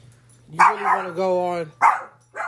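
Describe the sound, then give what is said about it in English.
Dogs barking in a few sharp barks and a longer, drawn-out whining bark, over a steady low hum. “excuse my dogs”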